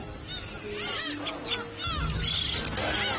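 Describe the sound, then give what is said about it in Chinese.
Harsh honking, goose-like calls come from adult black-faced spoonbills attacking helpless chicks at a nesting site, repeated hoarse cries rising and falling over a rough, noisy background. “这时候，无助的雏鸟们可能要承受无情的攻击。攻击它们的是那些没有找到筑巢地的成年黑脸琵鹭”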